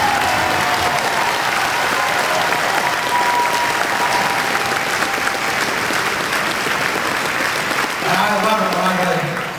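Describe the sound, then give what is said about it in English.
A Democratic trade union audience at a political rally breaks into loud, dense, sustained applause that fills the whole stretch, with voices calling out over the clapping near the end. “Hard-line Democratic trade union audience whooping and hollering about balanced budgets”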